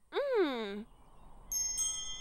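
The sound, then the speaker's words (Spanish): Small bells jingle briefly with a bright, high, tinkling ring, coming after a short voiced cry with a falling pitch. “¡Oh! ¡Son unas campanillas ruidosas!”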